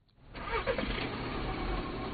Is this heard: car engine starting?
yes